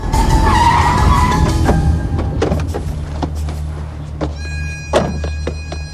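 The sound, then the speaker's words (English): A car's tyres screech loudly as it swerves toward the curb. The skid fills the first two seconds, then fades into a quieter engine rumble with a few sharp knocks. “Truman swerves the car towards the curb.”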